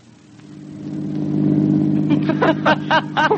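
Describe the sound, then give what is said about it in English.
A car engine drones as the car is driven fast toward a bad curve. The rumble is steady and low, and a voice speaks over the last part. “Careful, that's a bad curve up ahead. Don't drive so fast.”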